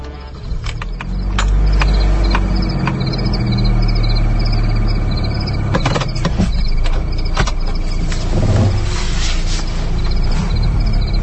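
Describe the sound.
A car engine runs with a steady, loud low rumble as the car drives off, with scattered clicks and creaks of moving parts over it. No one talks.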